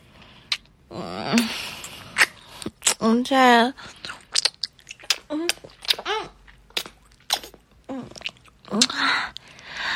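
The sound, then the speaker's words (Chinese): Wet bites and smacking chews while eating ice cream, many short irregular mouth sounds scattered between a child's voiced sounds. “我在吃冰淇淋呢，在吃冰淇淋。”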